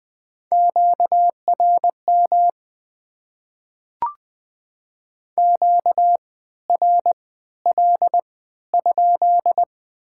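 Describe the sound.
Morse code sending the word "interference" at 20 words per minute with triple character spacing: steady mid-pitched beeps in short and long bursts grouped into letters, with a single sharp click partway through.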